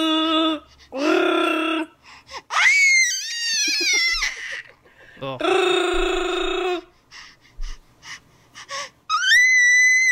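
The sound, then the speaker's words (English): A 5-month-old baby and his mother voice imitations of Chewbacca, trading raspy, wheezing growls and high squealing cries, broken by short pauses. “She is teaching her 5-month-old son how to do her Chewbacca noise, and I think he nails it.”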